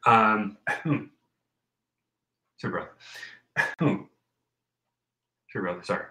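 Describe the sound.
Throat clearing from a vocal tic, a few abrupt, harsh throaty bursts in three clusters separated by silent gaps.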